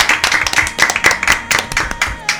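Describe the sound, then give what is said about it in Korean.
Clapping from a small audience at a local community event: a quick run of distinct, bright hand claps at an uneven rhythm, loud and close together. “박수 한번 쳐드릴게요.”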